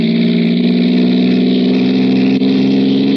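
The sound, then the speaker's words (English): A car engine drones loudly and evenly as it drives through lonely country in the Alleghenies, a constant low hum with strong harmonics and no break. “He hallooed at me this time. Stepped on the gas like a shot.”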